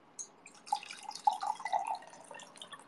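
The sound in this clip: Tea is poured into a cup, giving a faint, irregular trickle with small drip-like splashes scattered through, and no voices.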